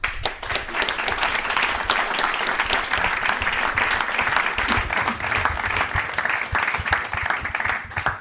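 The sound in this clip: An audience applauds to welcome a special guest speaker at an evening book event in a furniture store. Dense, steady clapping runs unbroken and fairly loud throughout.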